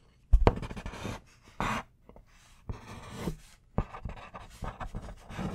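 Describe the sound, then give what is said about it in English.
Scratchy strokes of writing down notes come in several short bursts separated by brief pauses, soft and close, with no talking over them. “Okay, and then I'm gonna measure this and I'm gonna write down my findings.”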